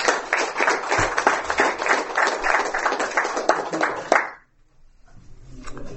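Applause breaks out as the audience at a recovery-meeting marathon welcomes the panelists. Crisp, closely packed claps run for about four seconds, then stop abruptly, leaving near quiet with a faint rumble.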